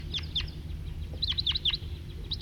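A big flock of about forty wild birds calls loudly in many short, bright, high chirps, clustered in uneven bursts over a steady low rumble.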